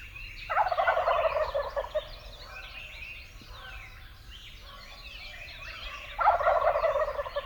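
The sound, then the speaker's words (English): Male wild turkey gobbling in a forest: two loud, rattling gobbles, each about a second long, separated by a long quiet stretch. “Another unique forest sound, and one that we are all familiar with, is the gobble of the male wild turkey.”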